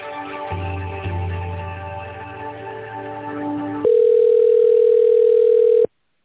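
A telephone line tone while a call is being transferred: a buzzing, layered line sound gives way to a loud, steady single-pitch tone lasting about two seconds before it stops abruptly.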